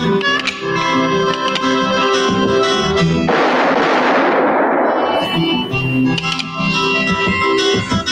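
A single gunshot in a western gunfight: a sudden sharp blast with a long, hissing decay over ongoing orchestral music.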